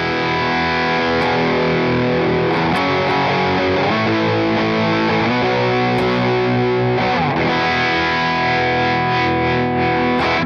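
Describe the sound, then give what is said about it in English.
An electric guitar played through a Nauticlon effects pedal, with the switch in the minus position for the stock sound, produces loud, continuous, heavily distorted sustained chords that shift several times. “so here's the Nauticlon, how I have it set.”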